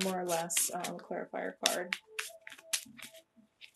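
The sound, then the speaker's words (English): Tarot cards are shuffled and drawn for a reading. A voice speaks first, then a few quick, soft card snaps and flicks follow in irregular bursts. “Let's see if I can just get an overall card just to sum up the reading.”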